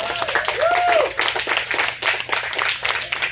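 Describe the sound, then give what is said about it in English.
A church audience claps during a first-anniversary celebration, a dense run of hand claps throughout, mixed with voices over the opening second. “I think we can clap. Yeah, absolutely.”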